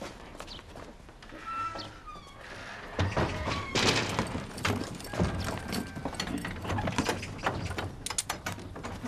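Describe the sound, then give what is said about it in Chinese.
A door being closed and locked at a village doctor's clinic: a series of knocks, thuds and rattling clatter with footsteps, sharper and louder after the first few seconds, over steady background noise. “锁门呢，快”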